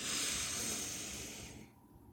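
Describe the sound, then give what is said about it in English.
A single deep inhale taken during a guided breathing exercise, a steady airy rush of breath lasting well over a second before fading out into near silence. “take a deep inhale”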